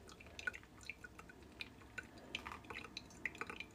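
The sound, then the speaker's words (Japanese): Hot water is poured slowly over ground coffee in a hand drip brewer set on a scale. It makes a faint, soft trickle broken by many small, irregular drips and light clicks. “ここから200ちょっと超えるぐらいまでお湯を注いで”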